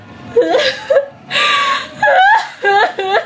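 A young woman starts to cry, with a few gasping breaths and wavering, whimpering sobs coming in short bursts.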